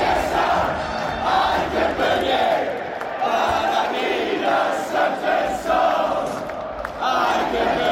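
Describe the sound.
A large crowd sings along loudly at a Boston Red Sox baseball game in the stadium: a dense, continuous roar of many voices with a faint melodic line running steadily throughout.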